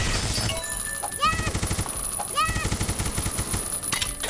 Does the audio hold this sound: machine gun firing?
yes